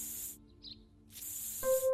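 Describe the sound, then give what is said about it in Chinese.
Decorative spray hisses from an aerosol can in two bright, steady bursts with a quiet pause between them. A faint steady tone joins near the end. “衣服和口琴变回原样，肯定是因为之前喷的装饰喷雾失效了。我现在就再喷一点。”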